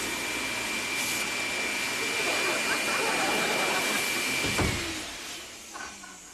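A vacuum cleaner runs with a steady, loud whooshing roar and a thin high whine, holding constant for several seconds before tapering off slightly near the end.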